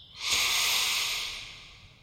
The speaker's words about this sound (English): Let's take a few deep breaths together. Ready? Breathe in. Breathe out. Breathe in.